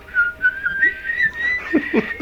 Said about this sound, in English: I like at the end when he whistles.